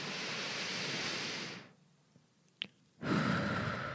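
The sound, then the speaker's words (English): A deep breath is drawn in through the nose as a long, airy rush lasting about a second and a half. Near-silence follows, then another breath begins. “take 3 deep breaths. In your nose,”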